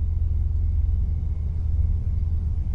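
A car's low engine rumble in a thriller film scene: a steady, deep drone with little variation and no higher-pitched sounds.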